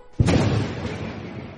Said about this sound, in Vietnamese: một tiếng nổ chấn động thành Vân Sơn